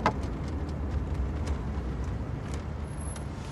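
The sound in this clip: A car drives along a busy city street, giving a steady, unbroken rumble of engine and road noise with no distinct separate events.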